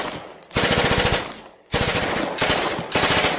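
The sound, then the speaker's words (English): Rapid bursts of automatic gunfire from deputies shooting: a few loud, rattling volleys of closely spaced shots, each separated by a brief gap, with no talk. “Oh, they've absolutely wrecked the neon. It's them deputies shooting. Probably all drunk.”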